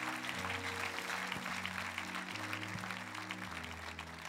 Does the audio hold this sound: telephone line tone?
no